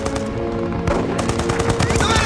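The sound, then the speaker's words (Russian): Soldiers open fire on German troops with machine guns in a war film scene. The gunfire comes as dense, loud, rapid continuous bursts over a layer of sustained tones. “Бойцы открывают по немцам огонь.”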